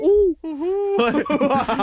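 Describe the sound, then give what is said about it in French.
A human voice imitating an owl's hoot with two drawn-out, wavering hoots, the second longer than the first, followed by talking. “Le hibou macaque de Saint-Raymond.”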